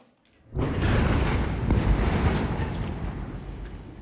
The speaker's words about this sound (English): Israel has launched a new wave of strikes across Gaza.